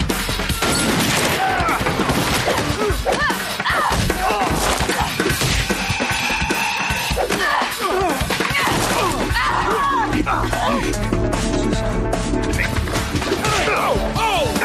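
A radiator swung as a bludgeon and held up as a bulletproof shield in a video game fight: many heavy metallic smashes, crashes and whacks mixed with gunfire over a dense, continuous backdrop.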